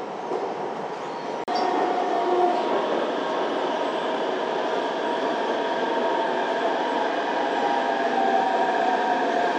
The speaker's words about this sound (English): 南邵站到了， We are arriving at 南邵 station。